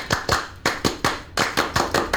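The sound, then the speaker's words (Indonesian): Rhythmic group clapping in the Scout clap (Tepuk Pramuka): sharp, crisp claps in a quick patterned sequence, grouped in short bursts with brief gaps between them, loud and alone. “Salam Pramuka. Tepuk Pramuka.”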